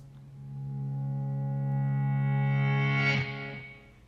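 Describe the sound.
A single sustained, harmonically rich note performs a volume swell, fading in from silence and growing steadily louder with a processed, effected tone for about three seconds before cutting off with a brief fading tail.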